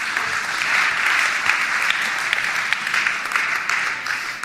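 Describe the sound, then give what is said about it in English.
Audience applause during a church evening service, a thick, steady patter of many hands clapping at an even, moderate loudness for the full stretch. “Everyone give it up for Melissa Mackey.”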